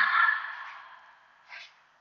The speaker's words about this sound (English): maybe creating a nice audible sound with our breath. Together, inhale, hold, exhale.